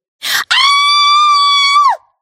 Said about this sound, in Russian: Так, я сейчас заору, не пугайтесь. Так нужно по методике.